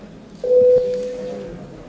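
A parliament bell in the Latvian Saeima, rung by the chair before a vote, sounds one steady tone for about a second, loud at first and then fading.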